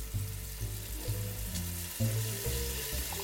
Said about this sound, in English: And then just gonna cook that doenjang in this onion and bacon mixture for a couple minutes.